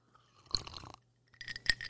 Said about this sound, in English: Here are the ice cubes.